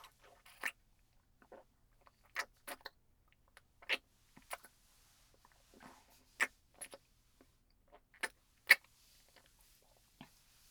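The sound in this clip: Someone eating food, with crisp crunching bites and chewing at irregular intervals, a dozen or so sharp crunches standing out clearly with no voices.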